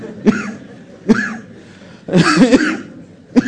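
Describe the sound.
A person coughs several times: short, harsh bursts spaced apart, with a longer, rougher spell of coughing in the middle.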